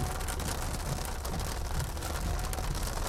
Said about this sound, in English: having to walk in the pouring rain